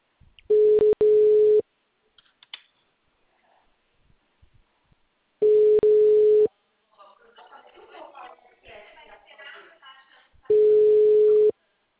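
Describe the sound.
A telephone line tone after a dropped call: three steady, mid-pitched beeps, each about a second long, separated by long gaps. Faint, muffled voices are heard between the second and third beeps.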